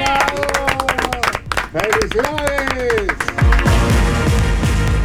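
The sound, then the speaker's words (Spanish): Applause with many quick, crisp claps rattling under a talking voice, steady and fairly loud throughout. “Aquí este aplauso con tu”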